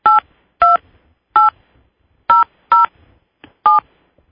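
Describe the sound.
Telephone keypad tones sound as a PIN is entered, followed by the pound key, to join a conference call line. Six loud, clean beeps come alone at uneven intervals.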